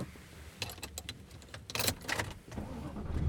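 Car sounds with a steady low engine rumble under a few sharp clicks and rattles, growing louder and noisier toward the end.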